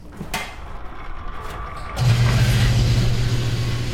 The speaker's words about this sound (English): We can pull right in, and we just pump it right directly into our tank. So here goes. It's going to make kind of a loud noise.